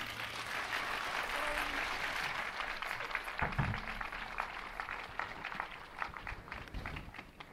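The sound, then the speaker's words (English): An audience applauds two performers with a dense, continuous patter of clapping that is fairly faint and thins slightly toward the end. “Let's give Linda and Dale another hand.”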